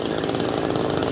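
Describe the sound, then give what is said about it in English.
A chainsaw run by rescue workers cuts a tunnel through the rubble of a high-rise apartment building that collapsed in an earthquake, giving a continuous, loud, rough buzzing drone with no talk. “that's the sound of rescue workers using a chainsaw to cut a tunnel through the remains of this high-rise apartment building that collapsed.”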